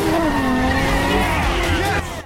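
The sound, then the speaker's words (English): A car's tires screech as it spins around a bend and loses control during a street race. The squeal is loud and wavering over a roaring engine, then cuts off abruptly near the end. “Spinning around another bend, DK loses control and careers into a parked car.”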